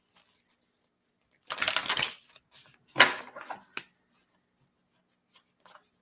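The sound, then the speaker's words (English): A deck of cards is shuffled and a card drawn, giving two main bursts of crisp riffling and snapping followed by a few faint, brief clicks and rustles, with quiet gaps between. “Let me pull a card. Let's get one of these cards right here.”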